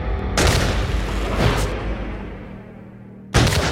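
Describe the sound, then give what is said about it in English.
A British soldier's musket discharges, then soldiers open fire during the Boston Massacre melee: a few heavy, booming gunshot blasts, each followed by a long rumbling decay. “a British private receives a severe blow to the head with a club and falls to the ground, causing his musket to discharge. In the melee, the soldiers open fire.”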